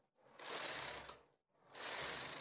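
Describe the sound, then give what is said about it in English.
A domestic knitting machine with a ribber attachment and connecting arm, threaded with yarn for casting on: two long, smooth, rushing swishes of the carriage sliding across the bed, split by a short pause, fairly faint. “I'm working on a domestic knitting machine with a ribber attachment and connecting arm. I have yarn threaded up at the back here through my tension mast, so I'm just going to cast on.”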